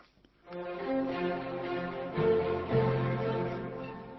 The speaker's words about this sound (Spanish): el tercer tiempo de la octava sinfonía es un tempo de minueto que es quizá y sin quizá el único minuet que escribió Beethoven para sus sinfonías.